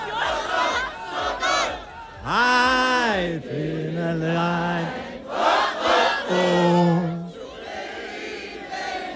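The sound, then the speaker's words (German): A big crowd of around 881 people sings loudly together in unison at an outdoor town gathering in Schwieberdingen, long sustained sung phrases swelling and dipping between breaths across several lines. “So, ihr hört schon, hier wird richtig kräftig gesungen.”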